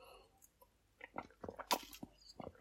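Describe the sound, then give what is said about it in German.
A sip of a drink taken after a toast: a few soft, wet mouth clicks and slurping noises, faint and alone without talk. “Bevor ich jetzt loslege, nehme ich nur noch einen Schluck, weil sonst, bevor ich mir jetzt den Mund fusselig rede, brauche ich noch einen, brauche ich noch einen Drink. Prösterchen.”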